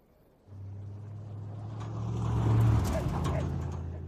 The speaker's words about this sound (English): The sheriff's truck rolls down a street.